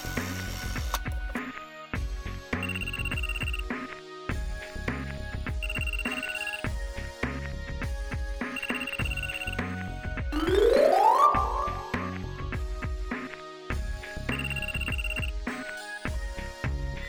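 A mobile phone ringtone plays a repeating electronic melody of bright tonal beeps in a steady looping rhythm, with a brief rising sweep midway, heard clearly on its own without talk.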